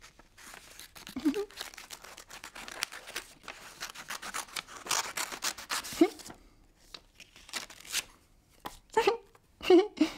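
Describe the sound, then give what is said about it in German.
Scissors cut with many crisp, short snips, some in quick runs and others separated by brief gaps, at a soft level. A few faint vocal sounds appear now and then. “Mit der Schere kann man schneiden.”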